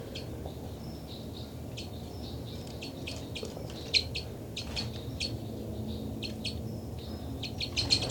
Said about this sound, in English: they're getting flight calls